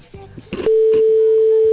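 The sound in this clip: A telephone line rings during an outgoing call, heard as a steady single-pitched ringing tone that starts after a short stretch of voice and holds to the end.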